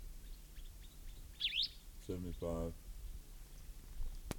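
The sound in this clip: In an archival field recording, a single bright bird chirp sweeps up and back down, followed by a few faint, short notes, while a voice speaks.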